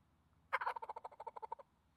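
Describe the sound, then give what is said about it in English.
A hand-worked gobble call makes a muffled turkey gobble meant to imitate a gobbler farther away: a quick, faint rattle of many rapid pulses lasting about a second, strongest at the start and tapering off. “if you want to sound like you're a gobbler that's a little bit further away, so you can muffle it”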